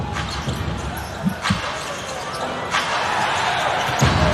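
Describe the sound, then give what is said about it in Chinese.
Basketball dribbled near the basket during a professional game, with a few dull, low bounces standing out from steady, loud crowd noise. “运球在篮下，为所欲为。”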